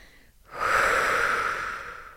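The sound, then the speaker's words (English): One long, deep breath is drawn in as a breathy hiss. It swells quickly, holds steadily for more than a second, then slowly tapers off, with no talk around it. “I need a deep breath after that one.”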